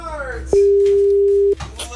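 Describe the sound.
A telephone ringing tone for an outgoing call sounds once as a single steady, level hum lasting about one second, with voices talking just before and after it.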